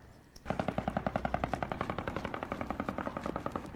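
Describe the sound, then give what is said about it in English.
A long burst of rapid automatic gunfire: many evenly spaced, punchy shots fire in a fast, steady rhythm for about three seconds, with no voices over it. “that's a fucking dumb burst. Did you hear that? That was all just firing.”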